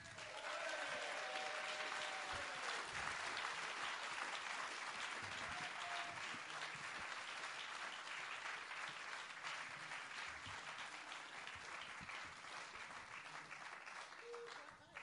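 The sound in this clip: Sustained audience applause greets two judges as they are welcomed onto the stage at a performance and writing competition. The clapping is loud and dense throughout and eases only slightly toward the end.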